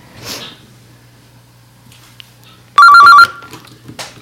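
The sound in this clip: A telephone rings for an incoming call with one short, loud electronic ring that warbles quickly between two pitches. Faint sniffs and breathy noises come before and after it.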